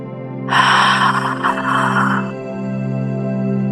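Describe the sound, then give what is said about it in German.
A deep breath drawn in during a guided breathing exercise: a soft, airy inhale of about two seconds over a steady low drone. “Nimm noch einen Atemzug ein.”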